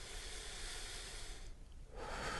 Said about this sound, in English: So I want you to breathe fairly deeply, kind of like this.